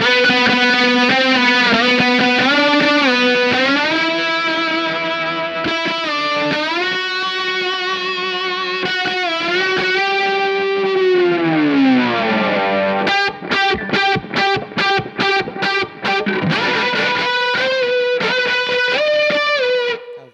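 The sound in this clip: A slide guitar with unison strings in open G tuning is played with a bottleneck. Loud, sustained notes glide up and down, then the playing turns to fast, rhythmic repeated chords, with no voice.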